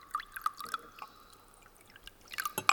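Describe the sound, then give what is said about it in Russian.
Water poured into a glass, heard as a few faint, scattered drips followed by a short, brighter splash of pouring near the end. “Другой парень наливает в стакан воду.”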